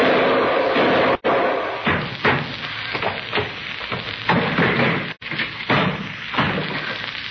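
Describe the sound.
A man tumbling down a flight of stairs: a dense run of heavy bumps and thuds over a rough, continuous scraping clatter, loud throughout, with two abrupt brief gaps.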